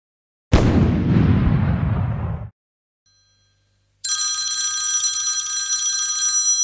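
A telephone rings with a steady, bright electronic tone rich in high overtones, sounding alone and continuing to the end. Before it comes a loud noisy burst of about two seconds, followed by a short silence.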